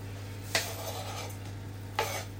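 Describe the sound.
Kitchen ovens running on a steady, low, even hum throughout, with two brief sharp clinks of cookware cutting in over the drone.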